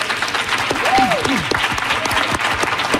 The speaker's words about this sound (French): Les gens que vous entendez, c'est parce qu'aujourd'hui, on vous présente une émission spéciale d'apéro public du dimanche devant une centaine de personnes rassemblées dans l'atrium de Radio-Canada à Montréal.